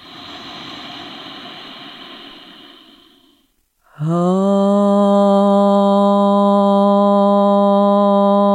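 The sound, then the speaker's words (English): A deep inhale during a meditation, drawn out as a long, airy breath for a few seconds. It fades into a brief silence, then a loud, steady chanted note with rich overtones holds to the end. “Take a deep breath, inhale.”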